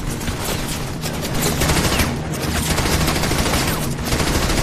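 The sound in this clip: Heavy gunfire roars in a 1944 Normandy battle between dug-in German troops and airborne soldiers. Dense, rapid shots and bursts merge into a continuous, loud barrage that swells in a few places, with no voices.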